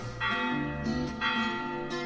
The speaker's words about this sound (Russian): Колокольный звон и блеск куполов.